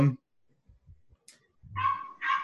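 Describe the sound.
A dog barking in the distance: a few short, sharp barks with faint whimpering sounds between them, over quiet.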